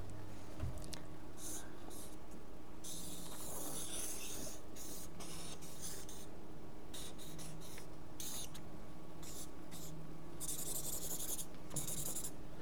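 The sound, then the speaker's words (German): Pen strokes on paper while sketching a human head in profile: many quiet, scratchy strokes of varying length over a steady soft hiss. “Also ich habe versucht, einen Menschenkopf zu malen von der Seite, für alle, die es nicht erkennen können.”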